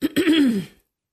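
Throat clearing by a single person: a short catch followed by a rough, grating rasp that lasts under a second, then silence.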